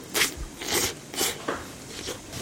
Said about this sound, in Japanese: 1品目水餃子がやってまいりました。もう湯気で熱々のね、奥様からもうすぐ食べてすぐ食べてって言ってすぐ食べるんですけども